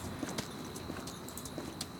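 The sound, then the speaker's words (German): Soft clip-clop of horses' hooves as riders travel through hot, dusty country, a few faint, irregular hoof knocks rising above a steady background hiss. “Und so reitet ihr relativ ohne weitere Vorfälle weiter und kommt schließlich durch Heimwiese”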